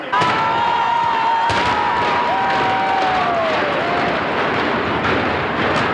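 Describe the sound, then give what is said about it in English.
A high-rise public housing project in Baltimore is demolished by implosion: a sudden heavy blast breaks in and becomes a sustained, loud rumble, while a crowd of spectators cheers and a shrill whistle sounds over it. “That was the sound of one of Baltimore's worst public housing projects being reduced to rubble.”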